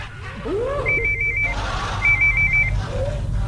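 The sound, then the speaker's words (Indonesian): An old telephone rings in two separate trilling bursts of a high, rapidly pulsing tone with a short pause between them. Steady low background noise sits underneath, with no talk. “Wis telepon jaman tahun alip kan.”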